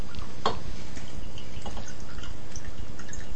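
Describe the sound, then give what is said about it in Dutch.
Tea is poured into a cup, the water splashing and trickling in a continuous bright stream with a few sharper drip-like splashes standing out. “Dit klinkt ook heel goed met deze microfoon. Dat thee schenken, dan komt dat water, hè? Dat klateren van dat water.”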